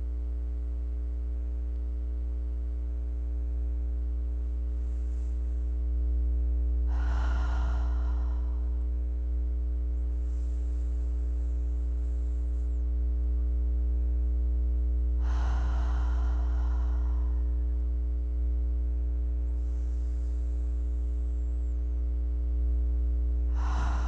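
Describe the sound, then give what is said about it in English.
A few slow, deep breaths drawn in and let out in soft, airy rushes. They sit over a steady low electrical hum, with no talking. “Let us start by taking 3 deep breaths.”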